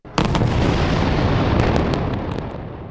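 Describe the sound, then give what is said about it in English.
Israeli rocket airstrikes exploding in the Gaza Strip at night: a sudden loud blast gives way to a sustained deep, rumbling roar, with a few sharp cracks near the start and again later as the rumble slowly fades. “It's the sound of Israeli rockets targeting Hamas in the Gaza Strip.”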